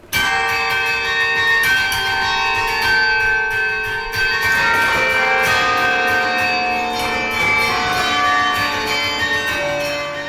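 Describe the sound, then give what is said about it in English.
Bronze carillon bells ring from the tower as a player strikes them in a quick, continuous stream. Many overlapping tones of different pitches form a loud, unbroken wash of ringing. “Lisa Loney finds playing the carillon quite a workout. The hands are flying, the feet are going at a rapid pace”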